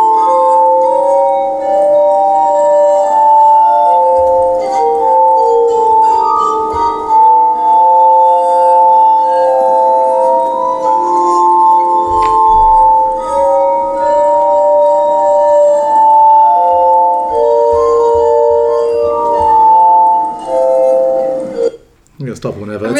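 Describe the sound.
Wine glasses ring in sustained, overlapping tones that shift in pitch like a slow melody for about twenty seconds, with a few low thumps underneath and a sharp noisy burst at the end.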